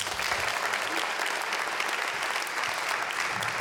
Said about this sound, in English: Would you give him a welcome?